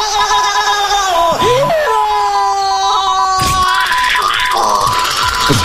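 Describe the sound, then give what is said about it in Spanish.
A taser stun gun sound effect: a loud, wavering, wail-like tone with a few pitch dips, then a harsh, buzzing electrical crackle over the second half, with no talking. “Sí, es un taser. Una pistola taser.”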